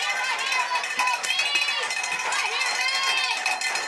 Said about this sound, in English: I'm sure the listeners at home can hear the fans on both sides. And they're getting into it here.